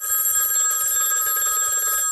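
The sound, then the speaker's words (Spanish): A telephone bell rings in one continuous loud metallic trill that holds steady and stops just before the end. “Uy, atendeme el teléfono. No quiero atender el teléfono. No sé si quiero atender.”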